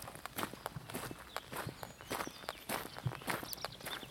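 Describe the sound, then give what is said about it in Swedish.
Footsteps of someone walking across a large meadow: many soft, quiet steps in a steady rhythm, with no talking. “Jag ska knalla vidare här upp över den här stora ängen för att komma till någon slags våtmark.”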